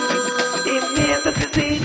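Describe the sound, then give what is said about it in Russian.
Telephone ringing with a tonal, music-like ring that carries steady high pitches over rhythmic low pulses, fairly loud and continuous, with no talk. “Телефонный звонок.”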